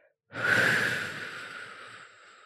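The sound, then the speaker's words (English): Someone takes a single slow breath out through pursed lips during a calming breathing exercise. The airy hiss starts strongly and fades gradually over about two seconds, heard alone. “So, in through the nose for 4 seconds, hold, and then out through pursed lips for 8.”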